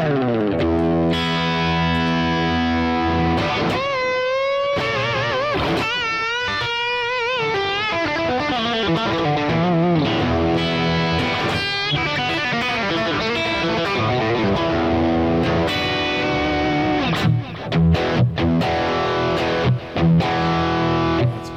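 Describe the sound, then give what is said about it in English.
Heavily overdriven electric guitar in a loud blowout distortion tone from its pickups, playing continuous riffs with sustained, buzzing notes, wavering bends and quicker runs, alone without talk. “And then give us a blowout sound on that so you can see how this guy rocks.”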